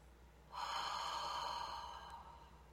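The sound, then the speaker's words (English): A single deep breath taken in: one long, airy, hissing inhale lasting about a second and a half, quiet and on its own, fading at the end. “So how do we tap into that? We take the breath.”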